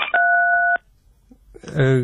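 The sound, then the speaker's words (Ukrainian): Telephone line tones follow a dropped call: a single steady two-pitch electronic tone lasts a little over half a second, then stops, leaving near silence before a voice starts talking. “ви з нами на зв'язку? Так, схоже, ми втратили зв'язок з експертом громадянської мережі «Опора» Олександром Клюжевим.”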